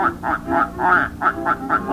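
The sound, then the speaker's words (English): Ducks quacking on a pond, a rapid, evenly spaced series of many nasal quacks at a steady rhythm, fairly loud and with no talking. “A lot of ducks out on the pond. Ducks sure take to the water like, ducks.”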